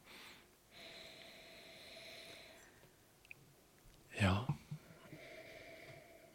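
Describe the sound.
Someone sniffs a glass of wine to smell it before tasting, a short, sharp burst of sniffing breaths over a faint steady hum.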